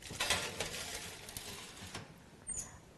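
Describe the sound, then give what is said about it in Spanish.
Faint clatter of a baking tray being put into an oven, a few light knocks and scrapes spaced across the moment, quiet and alone. “esta bandeja voy a meterla ya en el horno. Ya sabéis que de 5 a 10 minutos vamos a tenerlo en el horno”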